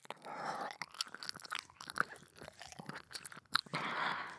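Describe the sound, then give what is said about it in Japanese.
Wet mouth sounds of an ear being licked: many soft smacks, clicks and slurps in an uneven rhythm over a breathy hiss, with no talk. “では先ほどのようにお耳を舐めながら処理させていただきます。”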